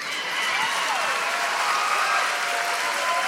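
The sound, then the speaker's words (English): Steady applause from a live audience, a dense, even wash of many hands clapping that stays at the same level for the whole stretch, with no distinct voices. “enough people are clapping. Not enough at all.”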